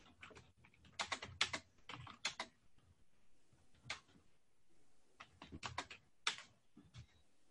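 Quiet typing on a computer keyboard: irregular bursts of rapid clicking keystrokes separated by short pauses, with no voices.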